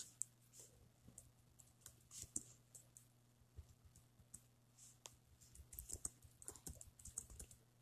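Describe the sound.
Typing on a computer keyboard: many quick, irregular key clicks, faint and uneven in rhythm, over a steady low hum, with no voices.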